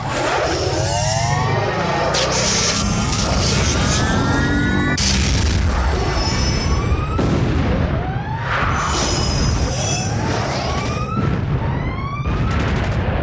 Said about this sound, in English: The pirates are circling around again. They are dropping some space bombs. Brace for impact.